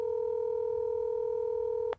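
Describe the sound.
A telephone ringback tone plays while waiting for someone to answer a call: one steady, clean electronic tone held for almost two seconds, then abruptly cut off.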